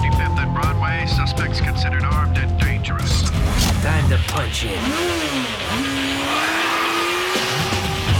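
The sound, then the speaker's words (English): A motorbike speeds off and accelerates through dark, deserted city streets. Its engine roars loudly and steadily, with revving swells and pitch sweeps as it gathers speed. “speeds off into the night, blazing a trail down the gloomy, deserted streets. He does a wheelie, then accelerates round a corner.”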